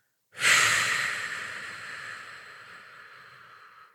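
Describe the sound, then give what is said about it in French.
A long, slow calming breath, drawn in through the nose and let out through the mouth, begins abruptly with a strong airy rush and then fades gradually over several seconds, heard alone. “si vous prenez une longue inspiration, idéalement par le nez, et que vous prenez une encore plus longue expiration par la bouche”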